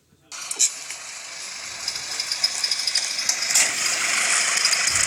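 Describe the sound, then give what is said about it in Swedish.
Engine of a white ice cream truck with painted decorations running, a steady rattling hum with broad hiss that starts abruptly and holds at an even level, with a few faint clicks along the way. “Med en vit glassbil med Nils Holgersson och Akka på målat. Okay. Ska vi höra hur den låter?”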